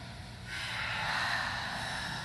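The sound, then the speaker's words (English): A deep breath in through the nose and out through the mouth during a guided meditation with standing postures: a long, steady airy rush that starts abruptly and holds for nearly two seconds, quiet and alone. “Take a deep inhale through the nose and exhale through the mouth. Two more times.”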